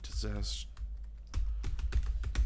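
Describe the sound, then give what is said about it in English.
Typing on a computer keyboard into an open document: many crisp keystrokes in an uneven rhythm, following a brief voice at the start. “Can you type it in right now and type it loud? Here, just tell me what it is. I already got the document open.”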